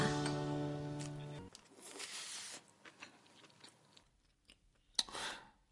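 Crunchy chewing and biting from someone eating a rice meal, a few irregular crisp bursts of moderate loudness that follow a steady tonal hum in the first second and a half, with a sharper bite near the end.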